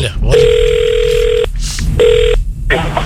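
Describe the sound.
A telephone ringing tone sounds twice: a long steady buzzing tone, then a shorter one after a pause, both loud over a low background hum.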